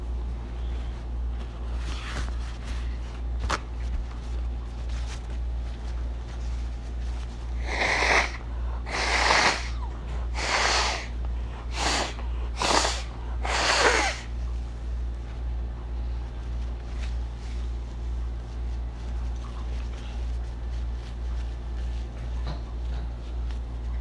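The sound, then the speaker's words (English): A person blowing their nose in a run of about six forceful, airy honking bursts close together, with a steady low hum running underneath throughout. “Excuse me. I'm gonna blow my goddamn nose.”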